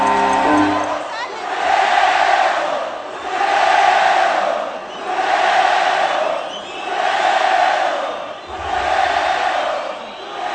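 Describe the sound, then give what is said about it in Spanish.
Stadium crowd chanting European-style songs in loud, rhythmic swells. Many voices rise and fall together through about five repeated chant phrases over a steady roar. “Cuando el público empieza a entonar cánticos europeos, que se oiga”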